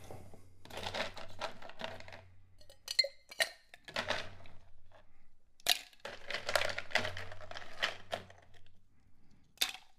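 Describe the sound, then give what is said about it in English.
Ice clattering and cracking as it is dropped into a cocktail glass holding a drink with orange bitters, many irregular clinks and crunches, fairly faint, over a low steady hum. “So now we're going to go ahead and put some ice in here.”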